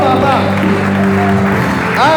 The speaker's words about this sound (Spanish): Dale un aplauso.